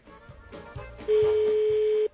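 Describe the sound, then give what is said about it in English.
A telephone ringing unanswered on a call placed to Austria: a single steady, mid-pitched ring tone lasts about a second and follows a low, faint murmur. “Might be milking time or something there. It'd take a long time to answer the phone in Austria.”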